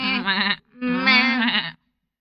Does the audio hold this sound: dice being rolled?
no